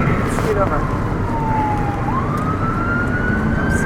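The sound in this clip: A fire truck siren wails continuously over steady road noise, its tone sliding down and then climbing back up.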